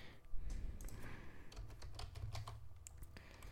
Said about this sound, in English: Bro, why is my keyboard is kind of messed up?